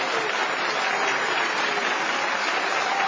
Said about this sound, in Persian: شک نکن، اگه شک میکنی دست بزن.